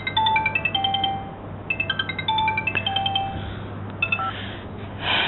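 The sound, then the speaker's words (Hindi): A telephone rings with a melodic electronic ringtone, fairly loud repeating phrases of rapid pulsing notes at changing pitches, ending with a brief noisy burst. “Telephone की घंटी बज रही है”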